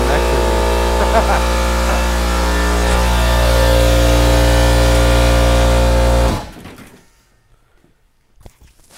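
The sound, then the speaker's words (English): An air compressor's motor drones as a loud, steady, low hum with layered harmonic tones, then cuts off abruptly about two-thirds of the way through, leaving near silence with faint scattered noise. “air compressor just turned on on the fly.”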